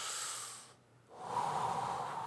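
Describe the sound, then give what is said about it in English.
A deep breath drawn slowly: a long, airy rush of air, then a brief pause, then a second, fuller breath phase with a breathy, slightly snorting texture. It is quiet and heard alone. “Walk slowly, take a few deep breaths of just,”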